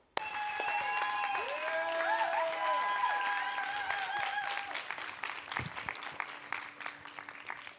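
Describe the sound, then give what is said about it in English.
A church audience applauds warmly as leaders step onto the stage. Steady clapping runs over music with sustained tones, then thins slightly toward the end. “But I would love for you to give a warm welcome to all the leaders stepping up to your stage to continue teaching us the way that Jesus multiplied people.”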